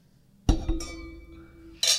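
Glasses clinking together in a toast: a sharp, bright clink quickly followed by further light taps, leaving a clear ringing tone that lingers and slowly fades.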